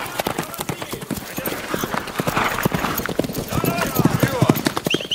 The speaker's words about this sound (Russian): Трое всадников едут по туманной ночной дороге.